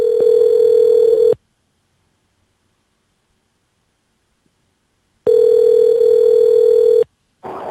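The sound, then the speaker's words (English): Telephone dial tone while a guest is being called: a loud, steady, low hum-like tone in two long stretches separated by several seconds of silence, with a third stretch starting at the very end. No voices. “All right, let's dial them in.”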